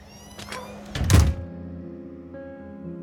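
A front door closes with one solid thunk near the middle, and sustained tones linger afterward.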